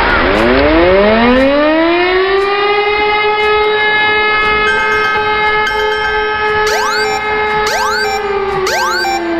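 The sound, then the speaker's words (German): A civil defence warning siren sounds during a nationwide warning day test, first wailing upward into a loud, steady tone, then breaking into repeated short rising pulses near the end. “Na, schon erschrocken? So oder so ähnlich klingt es morgen auch bei uns. Es ist nämlich mal wieder bundesweiter Warntag”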